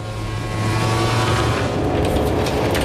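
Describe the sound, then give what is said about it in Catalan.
The engine of Maverick Viñales' Aprilia MotoGP racing motorcycle roars loudly, a dense, high-revving drone that holds steady and strong from start to finish. “Aquesta és la moto de Maverick Viñales.”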